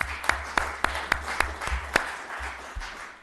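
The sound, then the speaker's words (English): Faint, sparse applause at a city council meeting: a small number of people clapping in slow, evenly spaced claps that thin out toward the end. “Big round of applause, please”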